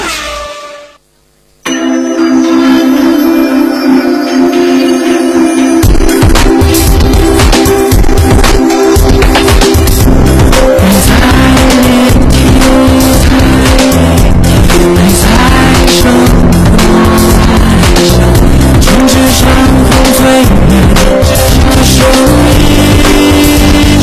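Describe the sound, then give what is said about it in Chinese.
Go-kart racing engines roar with squealing tires at an underground-level kart track in a car mall. The sound is loud, dense and continuous, starting after a brief quiet opening and growing busier partway through. “成美索尼克卡丁车带你撒把野，你就是上一个车王。”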